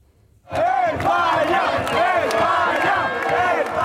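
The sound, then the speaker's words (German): Football fans in Madrid chant and cheer after Spain's win over Belgium. The sound bursts in after half a second of near-silence and becomes loud sustained crowd chanting, with swelling, wavering voices to the end. “So wie nach dem Sieg gegen Belgien soll es auch nach dem Halbfinale gegen Frankreich klingen.”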